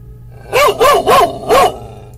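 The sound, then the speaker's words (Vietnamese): Fierce black dog barking, four sharp, loud barks in quick succession, evenly spaced, with nothing else heard around them. “Nó hằn đôi mắt hung dữ lên nhìn cô mà sủa.”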